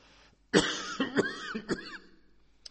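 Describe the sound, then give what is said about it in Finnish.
An older man has a coughing fit: several harsh, loud coughs in an uneven burst, trailing off into quieter rasping breaths. “taas toi yskän kohtaus tuli.”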